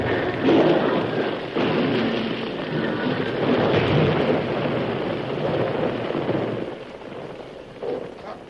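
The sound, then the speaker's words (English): A mine blast set under a huge overhang brings down thousands of tons of rock and ice: a long, loud, rolling low rumble that carries on steadily for several seconds, then eases near the end. “I just set the blast like you told me. It'll blow any minute now. What? You set a blast under an overhang as large as this one?”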